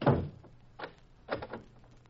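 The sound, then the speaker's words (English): A door is shut and locked to trap someone inside: one heavy thud, then a few fainter clicking knocks spaced apart, all fairly quiet. “Come on, Jean, let's get out. I lock him in.”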